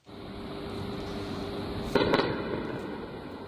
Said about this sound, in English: Far from Iran's southern coast, air defences have also gone off in Tehran.